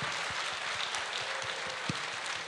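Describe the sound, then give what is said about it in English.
Audience applause at a live show as a volunteer is called on stage, a soft, steady patter of many hands clapping at a low level. “Applause is premature, trust me.”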